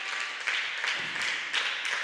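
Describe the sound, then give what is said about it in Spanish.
A church audience applauds in a continuous dense wash of clapping. The loudness stays fairly even, with a few slightly stronger swells, and no single claps stand out. “Ese aplauso para nuestro Dios, amén.”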